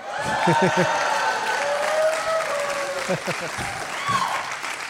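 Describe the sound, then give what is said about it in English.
Audience applause and cheering fill the whole stretch, a dense steady wash of clapping with sustained whooping voices over it and people talking. “They're cheering for me like I'm part of the Special Olympics.”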